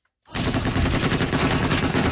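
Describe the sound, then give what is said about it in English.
Heavy machine guns mounted on pickup trucks fire during fighting in Yemen. The loud, continuous rattle of rapid shots starts abruptly and runs without pause. “Video released by Saudi-backed forces shows fighters and pickup trucks mounted with heavy machine guns firing on unknown targets.”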